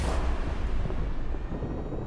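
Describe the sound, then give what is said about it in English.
An artillery gun of the 22nd Field Artillery battery firing in the Wuchung Mountains gives a heavy, rumbling boom that fills the whole clip as a steady, dense roar and fades slightly near the end. “First, we take you to the battery of the 22nd Field Artillery, located in the Wuchung Mountains. Range, 32 meters. 32 meters. Projection, 39 degrees. 39 degrees. Fire!”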